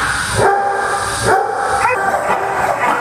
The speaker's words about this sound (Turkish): Çin'de Shangdu'daki bir evcil hayvan otelinde onlarca köpek serin odalarda konaklıyor.